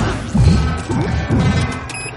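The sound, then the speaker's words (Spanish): Explosions blow apart tentacles in a sci-fi action film scene: a few heavy, crashing bursts with low rumbling thuds roll over a dense, loud effects bed. “Pulsa un detonador. Los tentáculos estallan.”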